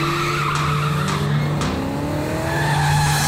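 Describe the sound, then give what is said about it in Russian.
A black Toyota with no plates speeds in a police chase, its tires squealing and skidding in a continuous loud screech, with whining tones sliding upward over a steady engine roar. “Следую черную иномарку. Без госномеров. Слишком быстро едет, слишком быстро едет.”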